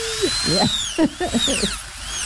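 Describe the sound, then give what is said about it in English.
A dentist's drill whirring as it is cranked up, heard as a thin, high-pitched whine that wavers up and down in pitch, with lower, rougher sounds beneath it. “He slowly removed the Novocaine from the table and set it aside and started cranking up that drill.”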